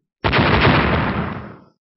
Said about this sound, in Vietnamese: Một tiếng nổ đùng kịch liệt vang lên, hai đạo hào quang cùng lúc chấn động, nổ lên tạo thành một làn sóng linh khí to lớn hơn cả